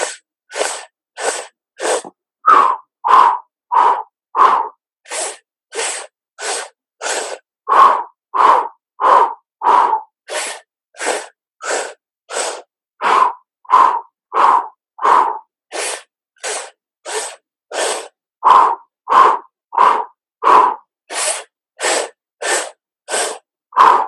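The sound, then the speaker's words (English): Sharp, rhythmic breaths are pushed in and out through tight lips during a breathing exercise of four inhales and four exhales. Many short, loud, hissing puffs follow one another in an even pulse, with no talk. “Keep inhaling 4 times, keep exhaling 4 times, keep the lips tight.”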